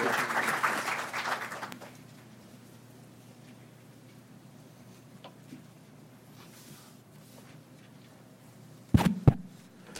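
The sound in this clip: Audience applause welcoming a speaker, a short burst of clapping that fades out after about two seconds, leaving quiet, with a couple of sharp thumps near the end.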